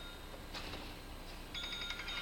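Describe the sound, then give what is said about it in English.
A phone rings very faintly in two short electronic ringtone bursts, the second longer than the first, against a quiet background. “Somebody's phone?”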